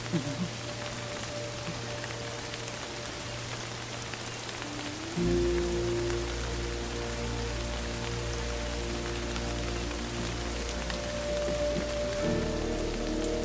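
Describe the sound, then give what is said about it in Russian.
Pouring rain falls steadily as people stand silently in a downpour, a dense, even hiss that runs throughout, with sustained low tones held beneath it and a fuller low layer entering about a third of the way in. “Ребята молча стоят под проливным дождем.”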